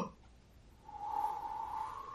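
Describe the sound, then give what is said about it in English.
A voice imitates a long, slow exhaling breath, like a creature breathing out negative energy in a tabletop fantasy game: a faint, airy hiss carrying a steady whistling tone, rising softly and then sustained to the end. “breathes out slowly”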